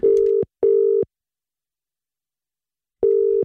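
Telephone line tone while a call is placed: two short, steady, buzzing tones in quick succession, a pause of about two seconds, then a third identical tone.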